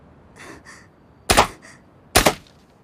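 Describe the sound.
Two sharp gunshots fired at a shooting target, sharp loud cracks about a second apart, each with a brief trailing thud, over a faint low background.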